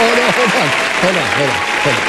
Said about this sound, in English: Are you clapping because I didn't say Rinkin Awareness?